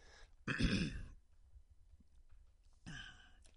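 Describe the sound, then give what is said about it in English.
Someone clears their throat twice with a bit of phlegm: a loud, rough rasp first, then after a quiet pause a shorter, softer rasp. “excuse me, brothers and sisters, a little stuff in my throat there. That's bothering me.”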